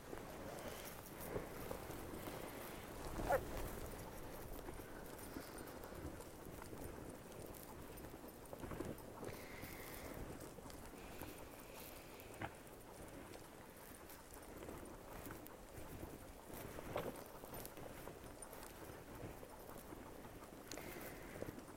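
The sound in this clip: Hooves of a horse named Cassidy clip-clop on a run in a steady, repeating rhythm, quiet and continuous throughout with a faint noise bed behind.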